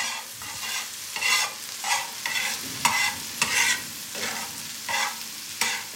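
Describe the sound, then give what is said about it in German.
A fried egg sizzles steadily in a pan while a spatula turns it, with repeated scraping strokes rising above the constant crackle at a loose, uneven rhythm. “Das ist ein Spiegelei in der Pfanne, gebraten mit einem Pfannenwender hin und her.”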